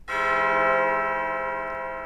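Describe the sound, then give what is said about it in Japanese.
One strike of the abbey church bell at Mont-Saint-Michel: a rich, many-toned ring that starts sharply and then hangs in a long, slowly fading sustain with no other sounds. “空に響き渡るモン・サン・ミッシェルの鐘、まるで二人を歓迎しているかのよう。”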